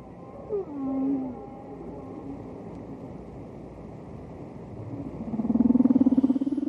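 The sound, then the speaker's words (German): Whale calls: low, moaning tones and a gliding, pitch-shifting cry over a steady, murky wash, ending with a louder, sustained, pulsing low tone. “Was wir da im Hintergrund hören, sind Geräusche, die Wale machen.”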